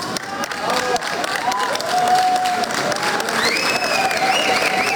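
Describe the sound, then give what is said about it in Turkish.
Applause and crowd noise greet a 27-year-old pilot at an airport: steady, dense clapping runs throughout, with voices and a few higher calls rising out of the crowd. “Tarihi bir başarıya imza atan 27 yaşındaki pilot havalimanında alkışlarla karşılandı.”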